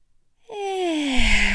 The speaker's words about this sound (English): Ooh, we're going to inhale through our nose.